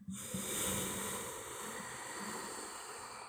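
A slow exhale through the nose during a breathing exercise: a soft, steady, airy hiss lasting about three seconds, faint and without talk.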